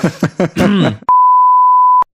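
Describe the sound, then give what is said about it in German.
A single steady electronic beep, a pure mid-pitched tone held loud and unchanging for about a second, right after a short burst of someone talking. “Piep.”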